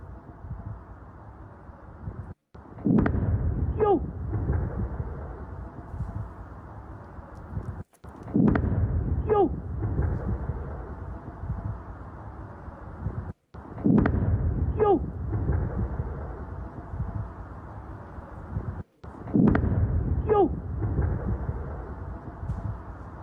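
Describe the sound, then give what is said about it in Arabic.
Interceptions of rockets fired from Lebanon over the Upper Galilee: four heavy booms at even intervals, each striking abruptly after a brief hush and trailing into a long rumbling roar. “نوه الآن إلى هذه المشاهد التي تظهر اعتراضات في سماء الجليل الأعلى إثر إطلاق صواريخ من لبنان.”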